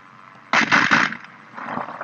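Gunfire in a flying capture-the-flag video game, a dense burst of rapid, noisy shots lasting under a second, followed by softer, lower crackling noise.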